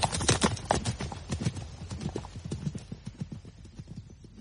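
Horses gallop with rapid, rhythmic clip-clopping hoofbeats that are strongest at the start and grow gradually fainter as the pace continues to the end.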